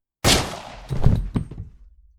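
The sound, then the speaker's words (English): A single gunshot from a handgun fired at a man: one sharp, loud crack with a quickly decaying tail, followed by a few duller thumps and clatter, with no speech. “You shot him in cold blood.”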